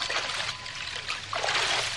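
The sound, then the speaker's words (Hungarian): Water being poured out as a radio drama sound effect, a continuous splashing trickle that swells and eases over about two seconds, with no voices. “Már másodszor öntött ki a vizet. Engedj végre innom.”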